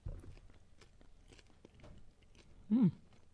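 Asparagus fried in butter is chewed, giving faint, irregular crunches and soft mouth sounds, then a brief voiced murmur near the end.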